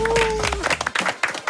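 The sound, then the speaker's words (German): A brief round of clapping for a pupil with top marks in class: a voice is heard at first, then scattered, irregular hand claps, fairly loud. “Hey, ein Applaus für die Maya ganz kurz, oder?”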